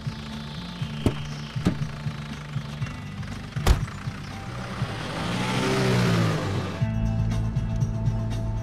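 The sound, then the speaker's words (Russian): A car engine hums along as the car drives, with a few sharp clicks early on. The engine swells louder for a couple of seconds near the end, then drops back to a lower hum. “Они едут в машину.”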